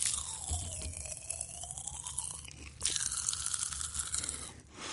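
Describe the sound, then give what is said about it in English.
Strawberry-scented popping candy, small yellowish crystals, crackling and crunching while chewed in the mouth: a dense, irregular stream of tiny pops and crunches with no talk. “I'm just going to pop some in my mouth and see what happens, see if it does indeed pop.”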